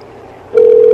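A telephone tone sounds after a call is hung up, starting abruptly after a quiet moment and holding as a loud, steady, single-pitched hum to the end.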